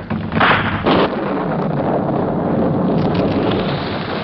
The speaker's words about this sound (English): An instant later, a rifle bullet found its mark in a keg of high explosive powder.